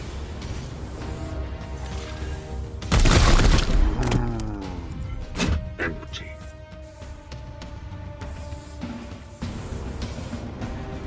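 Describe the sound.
A volley of gunfire in a video game erupts as a loud, dense burst partway through, amid other clanking game effects and crashes, with voices speaking over the action.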